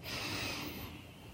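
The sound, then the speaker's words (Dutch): A deep breath is drawn in through the nose during a guided meditation. It is a single soft, airy inhale lasting about a second, faint and alone. “En adem een paar keer diep in door je neus.”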